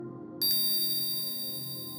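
A hypnosis bell chime struck once, ringing on as a bright, sustained metallic tone over a steady low hum, with no talking.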